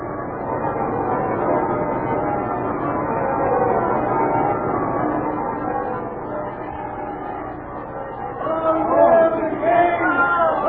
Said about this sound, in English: Listen, bells are ringing.